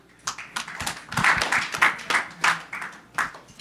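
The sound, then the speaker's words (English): Audience applause welcomes a speaker onto the stage at a live business talk event: dense, steady clapping of moderate loudness that continues throughout. “Let's give it up for Ben.”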